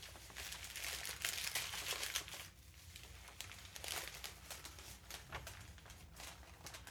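Wrapping paper crinkles and rustles as a gift is unwrapped, in a continuous papery crackle that is loudest early on and then continues more softly in uneven bursts.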